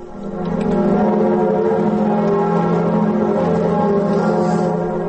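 Cathedral bells in Paris toll at noon as a mark of mourning. The deep, dense ringing swells in at the start, then holds as a loud, continuous wash of overlapping bell tones.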